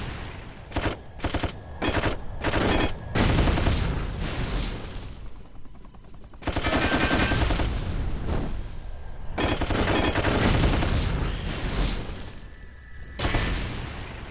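Machine gun firing, starting with a few sharp separate bursts and then running into a long, roaring, continuous stream of rapid fire with brief breaks, loud throughout, with no voices.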